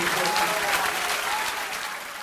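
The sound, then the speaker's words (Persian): Audience applause, a dense, steady wash of many hands clapping together, loud and sustained throughout with no voices above it. “اون کف دست صورت دومی، میخوام چنان کف بزنی که امشب سیلی کوچه رو تلافی کنی.”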